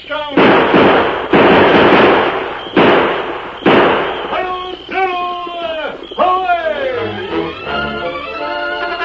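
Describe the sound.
Gunfire in an old-time western drama: about four loud, booming shots in the first four seconds, each trailing off, followed by quieter tonal sounds.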